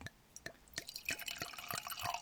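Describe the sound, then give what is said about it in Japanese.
Rosé-like wine is poured into a wine glass, starting as a run of faint, evenly spaced drips that turn into a busier splashing trickle toward the end. “じゃあちょっとあのワイングラスに注いでいただいて、ちょっとマイクの前で、じゃあ少し、はい、音を”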